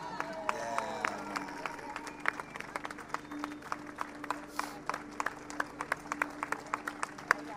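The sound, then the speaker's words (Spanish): Audience applause rings out at a tribute event held at a street gathering, scattered sharp claps repeating fairly evenly and faintly, with people talking over them near the start. “Un aplauso, ah, chicos, ya, sí, que no se corte el aplauso. Lo aplaudamos todo el día hoy.”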